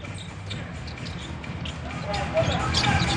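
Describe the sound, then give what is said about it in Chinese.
A basketball is dribbled quickly during a game: a run of soft rapid bounces under steady crowd noise and voices, growing a little louder toward the end. “而且他的运球真的是往前运，推得很快。”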